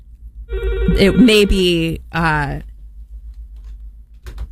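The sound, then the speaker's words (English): A telephone rings loudly in two bursts, a longer one followed by a shorter one, with a bright and slightly wavering tone. Near-silence with a faint click follows. “I don't know why the phone is ringing. The phone should not be ringing when the mic is on.”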